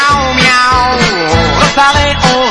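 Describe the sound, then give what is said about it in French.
A voice imitating a cat's meow, sung within a children's dance song over music. Drawn-out, wavering notes repeat several times at a loud, even level. “Un petit pas de côté en criant miaou.”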